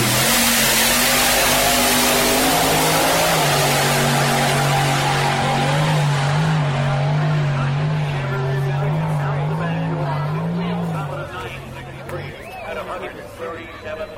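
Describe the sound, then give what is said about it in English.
Loud engine roar from a Chevy wheelstander drag car throwing flames at the Snowbird Outlaw Nationals, a steady low drone whose pitch wavers slightly before it drops off in level near the end. “We got the Chevy Stallion wheel stander coming up. He's throwing flames right now.”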